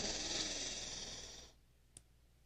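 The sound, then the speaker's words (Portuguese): A long, deep breath is drawn in during a breathing exercise for anxiety, a soft airy rush of about a second and a half that fades and stops, followed by a faint click. “Então, ó, vou fazer com vocês. Então, você vai fazer a continha, puxa o ar, ó.”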